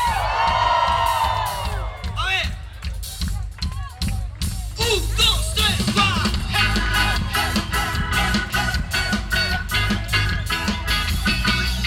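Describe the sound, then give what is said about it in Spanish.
A church audience gives a shout of joy in praise of God: loud cheering, whoops and many mixed voices with clapping, building into a sustained, energetic roar. “Que tiemble este lugar de alabanza a Dios en esta noche. ¡Damos un grito de júbilo!”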